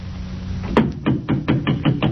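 Knocking on a church vestry door: a series of sharp, hollow raps comes in a quick, fairly even rhythm.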